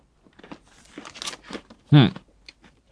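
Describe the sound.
Someone bites into a panda-shaped sweet with a green body. One short, crisp crunch stands out above faint rustling and small mouth noises.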